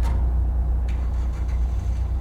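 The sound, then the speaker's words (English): A car drives off with a steady, low engine rumble that stays fairly even throughout, with no voices over it. “Oh. They're driving off.”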